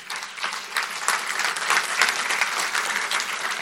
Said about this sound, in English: I think we should give them another round of applause.